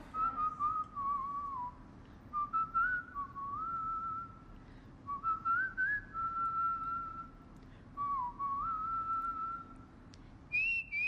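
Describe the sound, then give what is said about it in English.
A woman whistles a tune: clear, pure melodic phrases separated by short pauses, gliding between notes and jumping to a higher pitch for the final phrase, over a faint background hiss. “But I didn't know she is a phenomenal whistler. A whistler. I was shooketh when I came across this clip on TikTok last night. So have a listen.”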